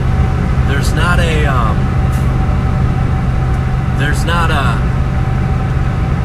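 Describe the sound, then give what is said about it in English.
A semi truck passing a car on the road, heard as a steady, heavy low engine and road rumble throughout, with a person talking briefly over it. “Sorry, I got this semi, like, trying to pass me here. I'm like, focusing on driving.”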